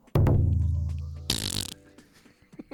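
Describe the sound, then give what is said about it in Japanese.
A loud, low rumbling fart, performed as a party trick into a microphone, lasts about a second and fades, followed by a short hissing burst and a few faint scattered sounds. “これ一発芸って本当に一発こうどこでもおならが出せますよっていうそんな芸です すごいですねちゃんと今マイクに入ってましたからね”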